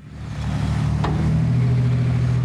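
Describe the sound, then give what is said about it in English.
Heavy haulers dumping huge piles of snow on Front Street in Nome: a loud, steady low engine rumble that builds over the first half-second and then holds, with no voices standing out. “Monday, heavy haulers drown out the voices of bystanders as huge piles of snow are dumped on Front Street in Nome.”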